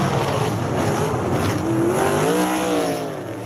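A wingless dirt track race car roars with a steady, loud engine drone. The pitch climbs partway through, and the sound eases off slightly at the end.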